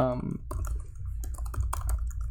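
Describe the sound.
Typing on a computer keyboard: irregular, quick clicks and taps at a moderate level, following a brief voice at the start.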